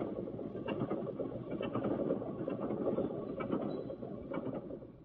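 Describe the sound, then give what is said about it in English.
An old car engine running on stale gasoline sputters and coughs in uneven bursts over a low rumble, then fades away as it stalls at the end. “There. Stalled again.”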